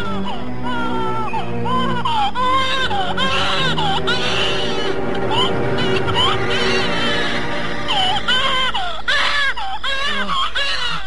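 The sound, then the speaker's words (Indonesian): A newborn baby boy crying, with repeated high, wavering wails that rise and fall continuously and loudly throughout. “Tidak lama kemudian, terdengarlah tangis bayi laki-laki.”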